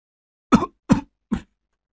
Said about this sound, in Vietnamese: Tiếng ho khủ khủ, lẫn cả tiếng điệu hò ơ, cứ văng vẳng trong đêm. Tiếng ho vừa dứt